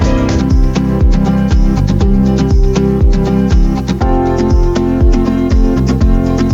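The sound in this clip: The Oriente Express headlines jingle, an upbeat piece of music with a steady, punchy beat under sustained tones. It is loud and has no voices.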